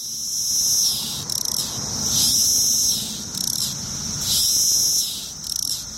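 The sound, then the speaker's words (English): Magicicada cassini periodical cicada courting calls: high, buzzing insect bursts swell and fade about every two seconds, with short, quick clicking pulses between them. “Magicicada Cassini. Here's its courting calls.”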